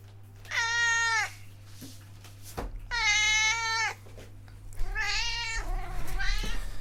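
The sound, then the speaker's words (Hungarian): A cat meowing several times, each a drawn-out, tonal, slightly wavering call separated by pauses. The calls are fairly faint over a low steady hum, with no talk. “Na cicácska, hajde életre keltél.”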